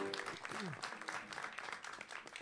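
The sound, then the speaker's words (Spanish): Faint audience applause for a jazz piano trio with double bass and drums, a soft, steady patter of many hands clapping, with a brief voice rising above it early on. “Bueno, sí, merecen los aplausos.”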